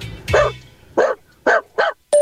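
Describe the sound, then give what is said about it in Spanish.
A person's voice imitates a small dog barking, five short, sharp yapping barks in an uneven rhythm, the last one cut short. “Es la mejor versión de mi imitación, ¿eh? Aquí va, un perrito.”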